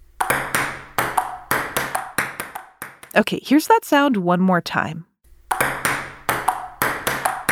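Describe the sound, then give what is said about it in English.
A ping pong ball hit back and forth in a table tennis rally gives many sharp, bright clicks in a quick, uneven rhythm. A voice speaks briefly in the middle, then the hits resume. “That sound is... Ping pong!”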